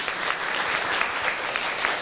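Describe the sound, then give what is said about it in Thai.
Students in a classroom quiz game applaud themselves with a short burst of dense, even clapping from many hands, bright and sustained for about two seconds. “คนไหนถูกปรบมือให้ตัวเองด้วยครับ”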